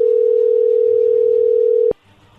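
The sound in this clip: Telephone dial tone heard while a call is placed: a loud, steady single-pitch hum that holds unchanged, then cuts off abruptly with a sharp click near the end, leaving only faint low noise.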